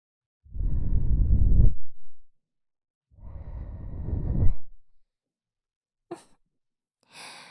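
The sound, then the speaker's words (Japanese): Gentle breath blown onto an ear to cool it: two long, soft, breathy blows, each about a second long, followed by a couple of brief, faint noises. “ふうふうして冷ましてあげないと。”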